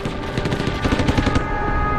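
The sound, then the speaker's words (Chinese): Machine gun fire from a German gunner firing on troops during a World War II beach landing: loud, rapid rattling bursts of shots in a continuous stream, with no voices heard. “我当即用机枪开火扫射。”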